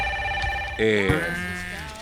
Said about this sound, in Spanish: Oh, va mi teléfono. Nadie se mueve.